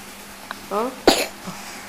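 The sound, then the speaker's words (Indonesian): A single sharp cough bursts out, brief and moderately loud, right after a few short voiced sounds, with quiet background noise around it. “Batuk.”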